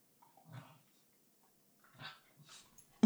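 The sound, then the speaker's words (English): Dogs fighting give faint, short whimpers and growls, a few brief bursts separated by quiet gaps, with a sharper sound at the very end. “you might hear some dog fighting in the background.”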